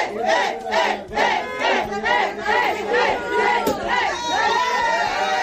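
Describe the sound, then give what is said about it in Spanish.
Winners of Spain's El Gordo Christmas lottery cheer and chant together. Loud, rhythmic shouted phrases repeat many times in quick succession from a jubilant crowd. “El sonido de la felicidad de los agraciados en el sorteo del gordo de Navidad que dejó en la comunidad algo más de 47 millones de euros”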